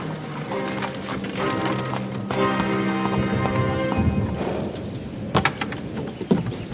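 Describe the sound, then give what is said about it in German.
Horse hooves clip-clop steadily as a horse-drawn carriage pulls up in a prison courtyard on a raw May day, with a rolling rumble beneath, ending in a few sharper, louder clops. “an einem unfreundlichen Tag im Mai eine Kutsche auf dem Hof der Bastille vorfuhr.”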